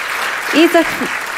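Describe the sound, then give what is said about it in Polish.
Audience applause for musicians taking the stage at a live concert: dense, steady clapping throughout, with a short voice rising briefly over it. “Proszę, brawa.”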